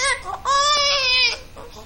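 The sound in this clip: A hungry baby cries in a loud, high-pitched wail: a short opening burst, then a longer sustained cry that trails off into softer whimpers.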